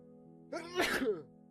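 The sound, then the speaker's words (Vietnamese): A single strong sneeze from a man sitting on a stone embankment by the water at dusk, a sharp breathy burst that peaks and trails off within under a second, over a faint steady background. “thầy Lương lại hắt hơi một cái rõ mạnh”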